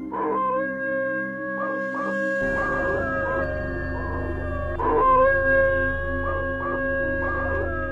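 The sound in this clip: A dog howling in long, wavering tones broken by short whimpering yips. A low, steady rumble starts partway through and runs under the howl.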